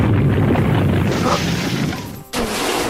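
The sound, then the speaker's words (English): A Quake attack sound effect in a video game battle booms as a loud, continuous rumbling crash. It drops briefly near the end, then surges back at full strength. “Faux Promolder used Quake.”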